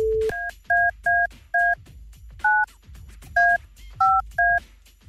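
Touch-tone keypad dialling a telephone number to call a listener, with a brief steady tone followed by a string of separate two-note beeps in an uneven rhythm over low background hiss. No one speaks.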